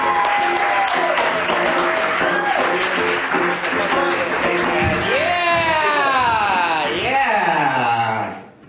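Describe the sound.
Loud crowd applause mixed with whoops and shouted cheers welcomes a comedian to the stage at the I.O. comedy venue, holding strong and steady before fading out at the very end.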